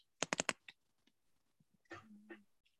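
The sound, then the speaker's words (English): Computer keyboard typing: a quick cluster of crisp keystrokes comes first, then a few faint scattered clicks and a soft tonal sound near the end. “That's, let me type it out.”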